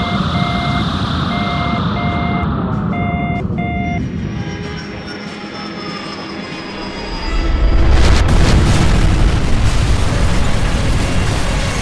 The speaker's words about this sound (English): Oh, what's that? We are crashing into the atmosphere. Huh? Entering the atmosphere of OMG?